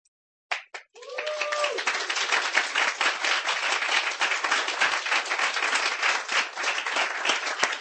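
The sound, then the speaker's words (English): Audience applause after a poetry reading: two lone claps, then a full, steady round of clapping that carries on evenly to the end, with a brief voice near the start. “Give her a hand. Let's keep it going.”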